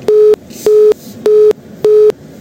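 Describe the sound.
A telephone busy tone follows a call dropped for lack of network: short, steady, mid-pitched beeps in an even rhythm, four full ones and a fifth cut off, loud and alone.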